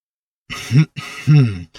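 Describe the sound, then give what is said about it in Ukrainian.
A voice imitates an affected cough, clearing its throat before speaking as a haughty firework rocket. Two voiced, throaty bursts come in quick succession, followed by a short third one, with nothing else around them. “Ракета завжди покашлювала, перш ніж заговорити. Так вона привертала до себе увагу.”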